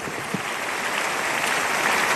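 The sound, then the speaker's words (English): Congregation clapping in praise at a church service, a dense, steady round of applause that holds an even level from start to finish. “Give the Lord a big, big clap of praise.”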